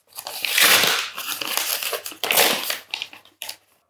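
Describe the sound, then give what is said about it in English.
Paper envelopes being torn open: a few loud bursts of crinkling, ripping paper, with shorter crumpling sounds at the end. “So without further ado, we're going to start cracking these envelopes open.”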